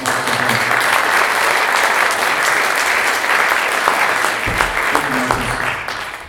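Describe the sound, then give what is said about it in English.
Audience applause at a conference as a speaker is introduced, a sustained, dense wash of many clapping hands that stays loud and steady across the whole stretch without a break. “Let's give a round of applause for”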